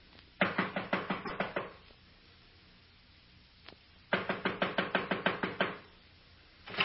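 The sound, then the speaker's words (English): Knocking on an apartment door: two rapid runs of many firm, even knocks separated by a pause, with a lone knock between them and another starting at the end. “I'll knock.”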